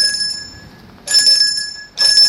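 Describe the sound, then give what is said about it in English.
A doorbell ringing at the front door of a house, sounding in three bright, high-pitched metallic rings, the middle one sustained longest, each ending abruptly. “the doctor rang the bell”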